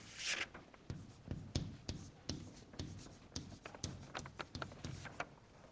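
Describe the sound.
Handwriting on a surface: many quick, scratchy strokes in an irregular rhythm, some sharper taps among softer rubbing sweeps, quiet throughout.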